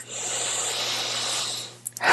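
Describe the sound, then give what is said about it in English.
A big, deep breath taken during a finger-tapping relaxation exercise, a long airy rush of breath that stops abruptly, followed by a few brief faint sounds. “So tapping your index finger, big breath.”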